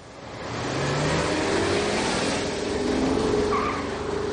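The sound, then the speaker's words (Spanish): A car pulls away from a police station, its engine noise swelling over the first second into a sustained, loud motor roar that holds and eases slightly at the end. “Malakian sube la ventanilla y el conductor arranca alejándose de la comisaría bajo la tinta mirada de Sonier.”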